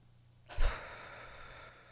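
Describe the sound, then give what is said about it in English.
A person takes a deep breath. The airy inhale begins with a sudden rush, then trails off softly over about a second and a half, faint against near silence. “Let's take a deep breath first.”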